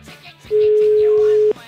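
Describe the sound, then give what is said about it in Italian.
A telephone call rings on the line as a single steady, mid-pitched ringback tone lasting about one second, with faint voice traces before and after it. “Facciamogli una telefonatina, va, prima squillava e non rispondeva, vediamo.”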